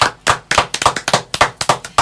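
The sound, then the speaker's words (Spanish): Audience applause for a guest, heard as many sharp, separate, loud claps in an uneven rhythm rather than a dense roar. “Por eso este aplauso es para usted, don Marco Buratini.”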